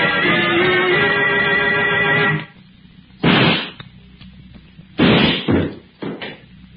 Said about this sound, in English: You shot him.